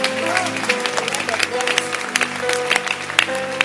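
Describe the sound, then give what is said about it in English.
A church audience clapping: a busy patter of hand claps with sharper individual claps standing out, under voices that carry on throughout. “That's why I'm being tempted to beg you again to stand up and let's clap for God.”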